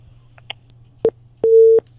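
Telephone tones after a phone call cuts off: a short mid-pitched beep, then a longer steady tone, over a low hum with a faint click before them.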